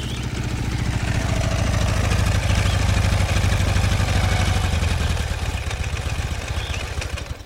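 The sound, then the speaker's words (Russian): A motorcycle carrying two riders passes along a forest track, its engine giving a loud, steady, rattling drone that eases slightly toward the end. “Ее обгоняют двое местных на мотоцикле.”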